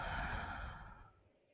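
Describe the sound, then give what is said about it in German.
A single slow, deep exhale during a guided breathing exercise. The soft, breathy rush starts full and gradually tapers away to near silence. “Atme noch zweimal tief ein und aus.”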